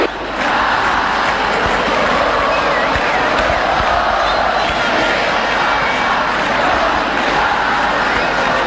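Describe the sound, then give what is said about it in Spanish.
A stadium crowd at Defensores del Chaco in Paraguay cheers a goal for the national team, a loud continuous roar from packed cement stands that holds steady throughout with no clear break. “Vibran las gradas de cemento. El público está de pie. Escuchen.”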